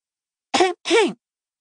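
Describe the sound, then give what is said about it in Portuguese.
An exaggerated throat clearing performed by a voice comes in two short, rough bursts, the second longer and more tonal, heard alone against silence. “Puxou um pergaminho que agora começava a desdobrar, pigarreando com exagero antes de começar a lê-lo.”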